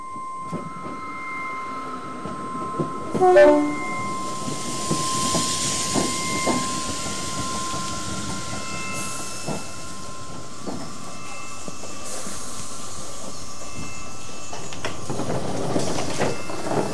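A train pulls in at platform 7 of a railway station with a continuous rumbling hiss and a sustained tonal squeal. A brief louder burst comes early on, and the noise swells slightly toward the end.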